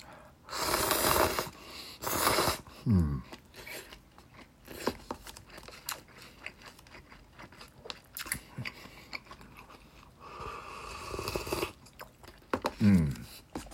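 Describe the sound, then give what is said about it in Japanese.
Someone eats and sips soup: a few loud, breathy slurps stand out among quieter chewing, crunchy bites and mouth noises. “もう一口食べ、スープ飲みますね”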